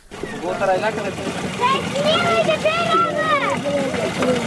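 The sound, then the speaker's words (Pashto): Children fill containers with water from a water tank built by an aid organization; water splashes and gurgles under children's voices, which talk throughout. “دلته ماشومان د اوبو له هغې ټانکۍ څخه ډبې ډکوي چې په سیمه کې د یوې مرستندوی موسسې لخوا جوړه شوې ده.”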